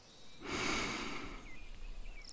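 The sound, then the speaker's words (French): A slow breath drawn in through the nose during a guided heart and throat chakra meditation: one soft, airy inhale that swells for about a second, then fades into a quiet hiss of background air. “Respirons ensemble quelques instants. Inspirez par le nez”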